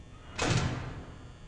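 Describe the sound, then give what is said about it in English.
A door is pushed shut with a single soft thud and a brief rush of air, quiet and on its own, the sound dying away quickly. “But seriously, you should close that door before Freddy or anyone comes.”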